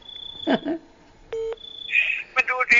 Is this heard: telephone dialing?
yes